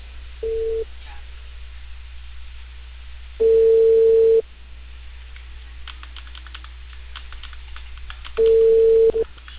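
Ringback tone of an outgoing call to a home in Peru over a narrow phone line: steady mid-pitched tone bursts, one short and then two lasting about a second, spaced several seconds apart over a low hum and faint line noise.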